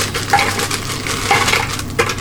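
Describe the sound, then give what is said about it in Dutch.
Food processor grinding Bastogne biscuits into crumbs, a continuous, loud, gritty whirr with rattling, crunching texture that holds steady throughout. “Gaat even herrie maken. Gaan we met de keukenmachine gaan we hem fijn draaien.”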